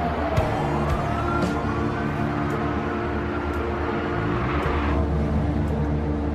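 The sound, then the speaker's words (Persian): An ambulance speeding along a road toward Tehran, its engine and road noise forming a steady, loud low roar that holds evenly throughout. “آمبولانس و جاده است و با سرعت داره میره سمت تهران.”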